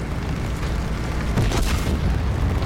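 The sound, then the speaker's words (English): Gunfire and heavy booms from a video game form a loud, dense, continuous barrage with no gaps between blasts. “I don't know what the gunshots are. Oh, I see them.”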